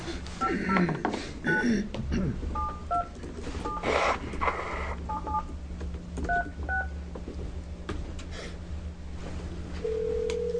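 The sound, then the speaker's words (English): Touch-tone keypad beeps as a phone is dialed to reach a witness during a legislative committee hearing: a quick series of paired electronic tones in short clusters over a steady background hum. “So we'll get her on the phone and see what she can share with us.”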